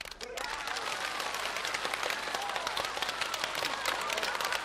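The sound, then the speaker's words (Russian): Faint applause from a stage play audience, with dense, rapid clapping that runs steadily without pause after a brief softer start. “Прохоров аплодирует, подняв руки над головой.”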